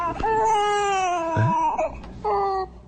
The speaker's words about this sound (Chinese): 不哭不哭，不哭不哭，哎呦呦呦，这谁家孩子呀？